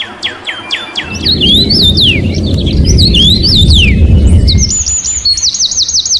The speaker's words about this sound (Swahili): Kama ndege waimbavyo kuipokea siku njema inayoanza kwao.